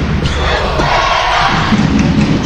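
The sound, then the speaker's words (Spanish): Home crowd of Valladolid (Pucela) fans roaring at a football match, a loud, steady wall of massed voices that holds without a break. “se enciende el público de Pucela”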